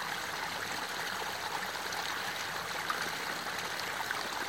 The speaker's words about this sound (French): Imaginez ce ruisseau de montagne qui se déverse tout en vous laissant porter par ce bruit de l'eau cristallin.